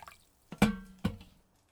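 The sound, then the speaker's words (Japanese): Hot water is poured in two short liquid plops, faint and isolated, each with a brief ringing tail that fades quickly into quiet. “ここに熱いお湯を注いで少しだけ待つと、”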